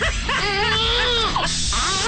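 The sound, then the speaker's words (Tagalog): A baby crying: continuous high, wavering wails with a strained, tonal quality and shifting pitch, loud over background noise. “Ayan na, umiyak na yung anak na ta si Ate Bideng. Tapos umiyak ulit. Ayan, umiyak na.”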